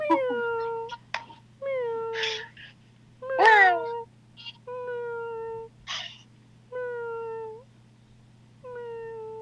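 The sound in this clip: A cat named Angus meowing over and over, a string of clear, tonal meows with falling pitch, some longer and drawn out, separated by short pauses.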